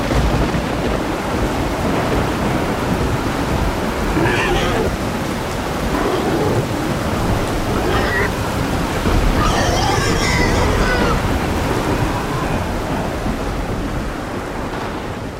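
Torrential rain in a thunderstorm: a loud, dense, unbroken wash of downpour noise with rolling thunder running through the whole stretch, the level staying high and steady throughout.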